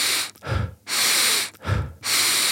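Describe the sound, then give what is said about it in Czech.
Intense hyperventilation breathing in rapid cycles of deep inhales and exhales. Loud, rushing exhales alternate with shorter, lower inhales in a steady, forceful rhythm, with no talking. “pouhý 2 cykly té hyperventilace, což spočívá, je to 30 nádechů a výdechů, je to právě docela intenzivní, jako když člověk běhá do kopce, vypadá to asi takhle.”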